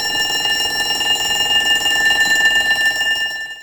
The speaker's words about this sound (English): So, what's that sound? Shout it out. A school bell.